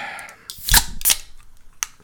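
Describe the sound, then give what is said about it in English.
Drinks being cracked open: a few sharp, crisp clicks and snaps. The two loudest come close together, and a fainter click follows a moment later. No one talks. “So, want to crack them? Let's crack them and drink them, boys.”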